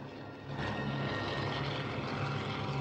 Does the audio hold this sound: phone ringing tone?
no

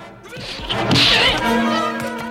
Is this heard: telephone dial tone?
no

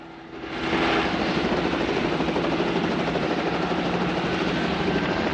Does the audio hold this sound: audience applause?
no

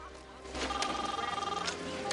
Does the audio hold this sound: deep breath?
no

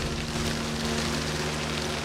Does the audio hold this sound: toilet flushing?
no

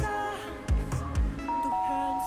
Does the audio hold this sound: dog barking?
no

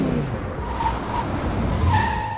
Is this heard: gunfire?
no

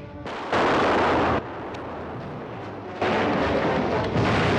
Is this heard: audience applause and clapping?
no

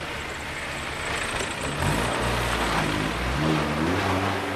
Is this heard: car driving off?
yes

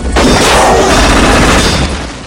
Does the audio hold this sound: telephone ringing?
no

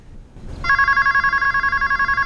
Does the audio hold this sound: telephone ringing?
yes

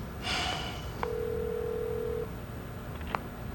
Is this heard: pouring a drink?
no

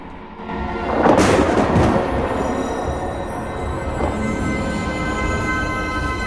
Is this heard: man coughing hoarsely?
no

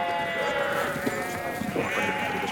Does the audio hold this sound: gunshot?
no

